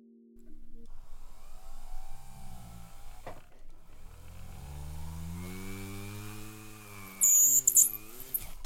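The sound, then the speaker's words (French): A small rotating cotton polishing brush with polishing paste runs on a metal jewellery piece in a jewellery workshop: a motor whine starts up and holds steady with shifting pitch, and a louder, brighter burst comes near the end. “Je viens de polir la pièce à l'aide d'un petit coton, une petite brosse en coton qui tourne très rapidement sur laquelle j'ai mis un peu de pâte à polir”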